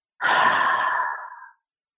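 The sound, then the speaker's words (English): One deep breath, a steady airy rush lasting over a second that softens and tapers off before stopping, heard alone in a pause during a mindfulness talk. “let's just take a breath together.”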